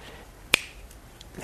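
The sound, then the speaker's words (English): A single sharp finger snap rings out as a bright, crisp click, standing alone against near-silence with only a few much fainter ticks after it. “I had to learn how to snap my fingers.”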